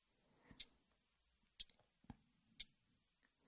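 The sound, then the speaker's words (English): A wristwatch ticks faintly in a quiet background. Sharp, thin clicks come about once per second, with a softer extra click or two between them. “You can hear the ticking of my watch in the background.”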